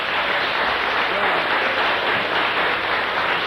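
Audience clapping: a steady, dense wash of many hands, hissing like rain and holding an even loudness for the full three and a half seconds.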